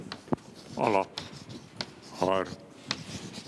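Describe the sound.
Scratchy writing on a board during a lecture, with light taps and rubbing strokes, faint and intermittent, broken by two short voiced sounds from the lecturer.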